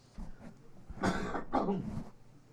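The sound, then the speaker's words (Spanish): Two fairly faint, rough coughs follow closely one after the other, alone without talk. “no esa tos que ustedes oyeron ahí”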